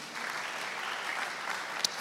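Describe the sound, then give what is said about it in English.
A church audience claps their hands together in steady, sustained applause that fills the whole clip at a fairly soft, even level. “Can you clap our hands for Jesus?”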